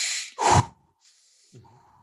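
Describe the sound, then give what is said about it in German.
Fast, deep hyperventilation breathing of the Wim Hof technique: two quick, forceful breaths in a row, then a fainter hissing breath and a soft trailing sound. “Das sind Hyperventilationstechniken. Da atme ich ein bisschen schneller und tiefer, als ich es vielleicht gewohnt bin.”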